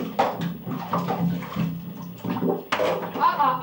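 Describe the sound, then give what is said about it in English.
Children splashing water in a bath, loud and constant, with many overlapping sloshes and slaps of water over several seconds. “You guys are splashing an awful lot,”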